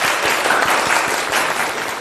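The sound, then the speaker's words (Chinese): Classmates applaud after a recitation in a class, a dense, continuous clatter of many hands that stays loud and even throughout. “大家给他鼓掌。”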